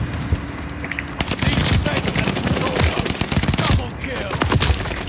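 Gunfire from the video game Call of Duty Vanguard: rapid machine-gun bursts and many sharp single shots, loud and dense throughout, with a short lull near the end before a few more shots.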